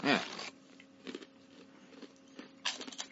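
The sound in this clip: Faint crunches from biting and chewing a spicy snack, a few crisp bursts spaced apart, with a brief voice at the start.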